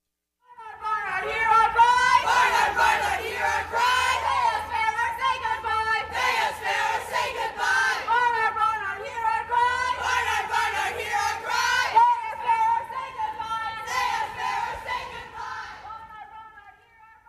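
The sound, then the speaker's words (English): Resident assistants and their supporters chant in unison at a union rally outside a college hall, a loud, steady rhythmic crowd chant that carries on throughout and eases slightly toward the end. “The sounds you're hearing now are chants from the Barnard RA Union Rally, held this Friday, October 20th, outside Barnard Hall.”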